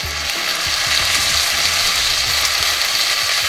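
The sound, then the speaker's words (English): Bacon sizzling in a pan gives a loud, continuous crackle with dense popping and spitting over a steady hiss, even in level from start to end, with no voices. “This is supposedly one of the most satisfying food sounds. It's the sound of sizzling bacon.”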